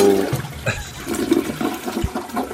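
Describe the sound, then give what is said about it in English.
A toilet flushes, its water rushing and gurgling loudly and steadily for a couple of seconds before easing slightly, heard alone without any talk. “making sure we had the toilet flush soundbite”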